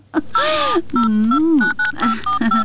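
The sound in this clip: Telephone dialing tones as a free call is placed: several short, steady beeping key tones in quick succession, with a voice heard alongside them.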